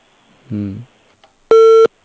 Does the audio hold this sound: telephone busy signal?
yes